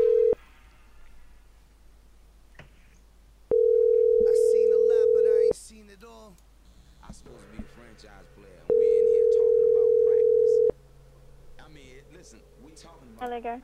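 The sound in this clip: A telephone call's ringback tone sounds as a steady mid-pitched hum in two long bursts of about two seconds each, with people talking between and over them.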